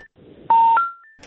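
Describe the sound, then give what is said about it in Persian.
Electronic telephone tones as a call drops: a few short, steady beeps at different pitches, one of them louder and longer than the others, with no talk. “خب تماس ما با دکتر پویا بازم قطع شد.”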